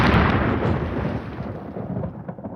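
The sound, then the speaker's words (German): Thunder rolls from a storm at sea in a broad, loud rumble that slowly tails off over a few seconds, with no voices over it. “Seien Sie unbesorgt, Viktor. Gewitter auf See klingen immer schlimmer, als sie sind.”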